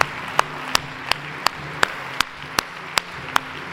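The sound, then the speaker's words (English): A church audience at an Easter service claps steadily to welcome new believers. About ten evenly spaced, sharp claps land in unison over a soft crowd murmur. “Before you're seated, would you put your hands together and help me welcome new believers into God's family?”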